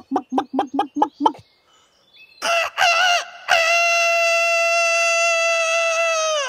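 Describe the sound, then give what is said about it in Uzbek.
A rooster gives six short, evenly spaced clucking calls, then after a pause a brief crow and a loud, long drawn-out crow held steadily for several seconds. “Xo'roz yana qichqiribdi. Bu safar chuzib, uzoq qichqiribdi.”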